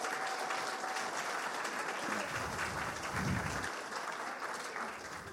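Soft, steady applause from a morning audience welcoming guests onto a platform, a continuous patter of many hands with a few low thumps partway through.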